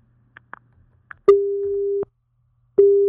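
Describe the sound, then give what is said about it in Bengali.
Telephone busy tone after a call line is cut: a steady low beep lasting under a second, then a second one starting, preceded by a few faint clicks. “লাইনটাই কেটে গেছে, কি আর বলবো।”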